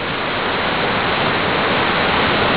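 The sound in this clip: Steady roar of a waterfall: a dense, unbroken rushing hiss that stays loud and constant from start to finish.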